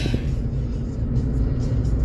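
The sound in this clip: A car drives along with a steady, low road rumble that stays even and fairly faint throughout, with no voices over it.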